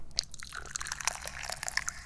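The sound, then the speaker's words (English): Tea being poured: a faint, continuous liquid trickle broken by small splashy bursts and light crackles. “and I need to pour me some tea.”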